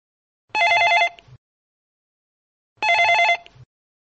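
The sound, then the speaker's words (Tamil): A telephone rings for an incoming call: two bright electronic trilling bursts separated by silence, each lasting under a second and stopping cleanly. “இங்க ஒரு அழைப்பு வந்துருச்சு, அதை பார்க்கலாம்.”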